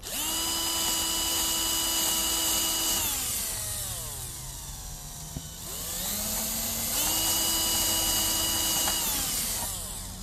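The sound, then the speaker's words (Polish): Power drill boring a shallow hole into a wooden board: a loud, steady motor whine that sags in pitch midway, climbs back, holds steady, then drops again near the end, with no voices. “1,5 cm to jest tu, więc bardzo niedużo wiercimy. Nie chcemy przewiercić deski na wylot.”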